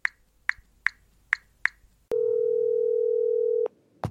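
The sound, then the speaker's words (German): A telephone is dialed: five short, evenly spaced high beeps, then a loud, steady tone of about one and a half seconds, ending with a brief click. “Ich wähle mal.”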